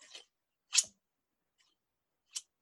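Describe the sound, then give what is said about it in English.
Crisp snips from old heavy-duty fabric scissors with a keen edge, three short bright cuts separated by silent pauses. “don't use my fabric scissors. Nothing could penetrate this thing. I think this thing is older than I am and it has never lost its edge.”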